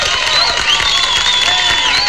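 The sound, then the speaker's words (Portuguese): Audience applause and crowd noise for a local CTC Padre Benjamin group in Campos Novos, a steady, loud, continuous wash of clapping that fills the whole clip. “E essa turma merece palmas.”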